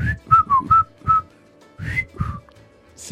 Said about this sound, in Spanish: Porque sé silbar así.